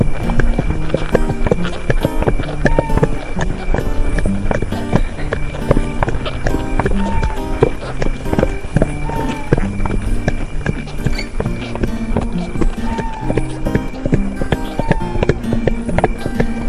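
Horses trot in a steady, rhythmic clip-clop of hooves that continues loudly and without pause for the whole clip.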